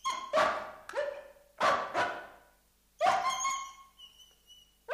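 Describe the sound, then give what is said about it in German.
A dog howling in a few wavering, harmonic cries. Short, sharp bursts come first, then a longer drawn-out wail that trails off, all moderately loud with no talk. “Warum heult der Hund?”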